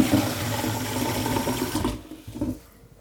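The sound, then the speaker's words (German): Water poured into a cooking pot of potato and pumpkin goulash, a loud, steady splashing rush for about two seconds that then stops abruptly, leaving a faint trailing trickle. “Da nehme ich jetzt aber vorerst nochmal Wasser.”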